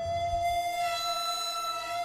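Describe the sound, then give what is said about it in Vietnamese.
A phone line sounds after a call is hung up: a single steady, mid-pitched electronic tone that holds evenly throughout. “Pháp sư Hoàng gầm lên, nhưng bên tai chỉ còn nghe thấy tiếng tút tút hụt hẳn”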